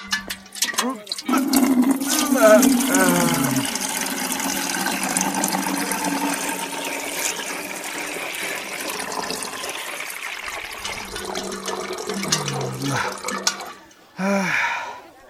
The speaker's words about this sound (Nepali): म क्यानमा दुध खन्याउँछु।